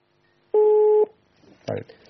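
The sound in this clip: A single steady electronic tone, clean and mid-pitched, signals a telephone call coming in on a call-in show. It sounds once, then a voice speaks briefly.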